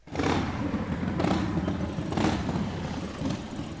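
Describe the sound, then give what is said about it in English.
Motorcycle engines from a Memorial Day veterans' ride rumble loudly and continuously, a thick, gritty drone with a few brief surges in power and no voices. “That's a motorcycle engine, and it's also the sound of rolling thunder.”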